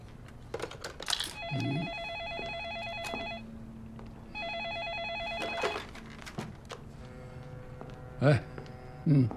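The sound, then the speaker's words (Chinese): An electronic telephone ringtone sounds in two long trilling bursts with a gap between them. A lower steady tone follows, with brief voices and small clicks around the rings. “哪能介许多电话了？”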